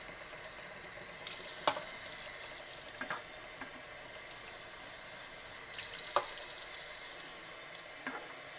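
Tap water runs steadily into a sink while recycling is rinsed, a constant hissing stream broken by a few light knocks and clinks.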